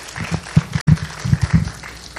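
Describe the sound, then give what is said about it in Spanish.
Audience applause at a church gathering, a sparse, uneven patter of claps with distinct individual hand strikes rather than a dense wash, moderately loud with a brief dropout midway. “le digo algo, otro aplauso. Porque se están llevando los aplausos.”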